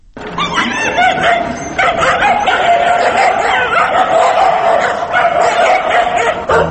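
Stray dogs bark and yip continuously, with many overlapping barks and higher whimpering yelps forming a dense, loud chorus.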